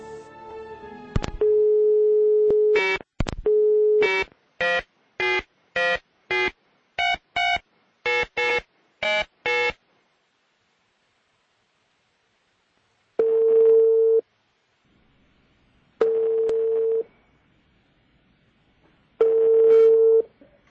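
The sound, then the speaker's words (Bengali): Telephone line tones as an outgoing call tries to connect: a steady tone, a rapid run of short keypad beeps, then three long, evenly spaced ringing tones separated by silence. “আমরা ফোনে connect করবার চেষ্টা করছি”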